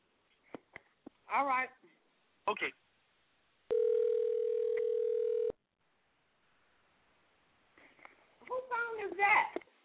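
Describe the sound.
A telephone dial tone sounds as a steady, unbroken hum for about two seconds while a call is placed, with people talking briefly before and after it.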